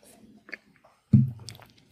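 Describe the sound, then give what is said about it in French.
A single wet gulp as someone takes a small sip of beer: a brief, low, squishy swallow, with a faint click shortly before it and soft mouth noises trailing after. “Je vais prendre une petite gorgée”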